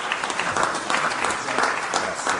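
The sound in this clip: An audience applauds to thank a senator at an Italian public event, giving a loud, dense round of clapping with gentle swells in intensity across the short burst.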